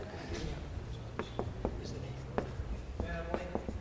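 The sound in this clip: Writing values down on a board during a group session, a series of short, quiet pen or marker strokes and taps with soft voices in the background.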